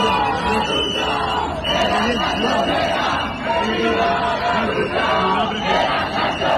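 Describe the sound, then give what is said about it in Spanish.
A large crowd at a housing protest in Spain chants slogans in rhythmic, shouted bursts that stay loud and continuous from start to finish. “Es el sonido, como decimos, de esas protestas.”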